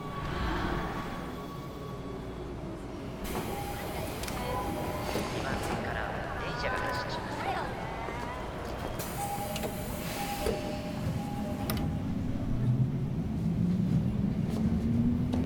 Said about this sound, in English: walks towards her train as it pulls in